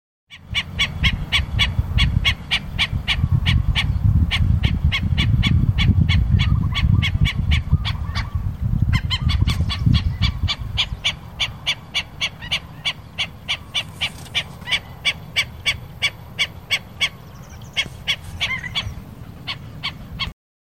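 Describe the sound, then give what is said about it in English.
A black-necked stilt on Maui, Hawaii, gives a long run of sharp, yapping calls in a quick, steady rhythm, loud throughout, over a low rumbling background noise that eases after the first half. “Black-necked stilt.”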